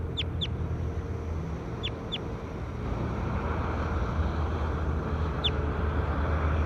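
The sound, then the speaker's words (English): Short, high bird chirps, five brief calls in two quick pairs and then a single note, sounding over a steady low rumbling background noise. “We're recording bird two again. Two. Two. That's bird 2.”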